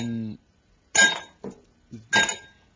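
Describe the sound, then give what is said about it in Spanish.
Ice cubes clink into a glass during a bar or drinks order, a few sharp, bright knocks in quick succession after a brief stretch of speech. “ponle cuatro hielos para que no entre tanto líquido, porque qué barbaridad”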